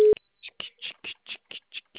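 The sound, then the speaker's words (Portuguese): Telephone tone sounding as a call is placed: a rapid, evenly spaced series of short electronic beeps, each brief and alike, repeating steadily after an opening click. “Agora vamos ligar pro Regis.”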